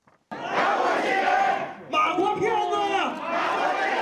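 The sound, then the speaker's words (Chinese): An angry crowd of families of missing MH370 passengers protests outside the Malaysian embassy in Beijing, many voices shouting together loudly. The shouting dips briefly partway through, then surges back and continues. “这是马航370航班的遇难家属们愤怒的声音。”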